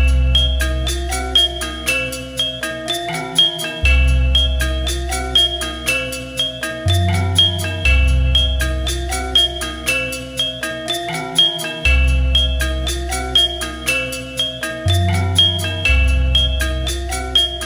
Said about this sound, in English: Now let's take a listen to the gamelan ensemble all together.